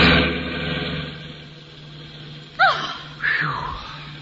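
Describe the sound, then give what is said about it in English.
Engine hum from a big black car swerving from side to side toward the listeners: a steady low drone throughout, broken near the end by two brief, sharp sweeping sounds. “Look at that car coming toward us. The big black one? Seems the driver's crazy. The way he's swerving from side to side.”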